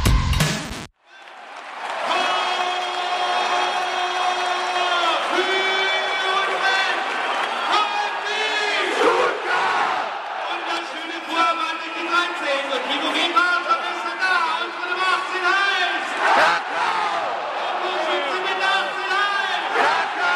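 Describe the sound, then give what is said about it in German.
A live football stadium crowd chants and sings in unison at a VfB Stuttgart Champions League round-of-16 first-leg match. The massed voices are loud and sustained, with a swelling melody that carries on without pause. “Was ihr gerade gehört habt, das war ein Live-Sound von einem der legendärsten VfB-Spiele in der Geschichte.”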